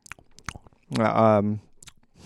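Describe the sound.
Nuts being chewed close to the microphone, with a few soft crunching clicks, while a person's voice is briefly heard in a sustained voiced sound.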